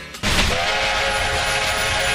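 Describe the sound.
Essex Steam Train's North Pole Express steam train starts abruptly after a brief quiet moment, then keeps up a steady, loud rumble with a sustained whistle-like tone running above it.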